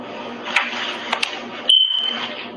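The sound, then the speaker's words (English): A smoke detector alarm in a comedy skit: a single high, steady electronic tone cuts in partway through and holds. Before it come talk and a few sharp clicks. “The skit the skit was in fact their smoke detector alarm was going off. Let's play it again.”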